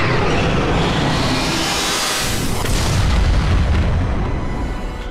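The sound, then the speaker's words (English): Final Dragon attack in a video game battle, a loud, sustained booming blast with a deep explosive rumble that swells around the middle and tapers slightly at the end. “Foe Last Resort Protocol used Final Dragon.”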